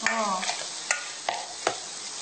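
Onions sizzle as they are sautéed in a pan, with a steady frying hiss throughout. A few sharp scrapes and knocks from stirring break through the hiss at intervals.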